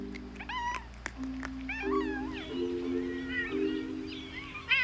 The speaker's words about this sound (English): A cat has 20 different sounds to express its emotions.